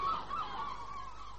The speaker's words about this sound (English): Shut up, you beastly birds. It isn't funny.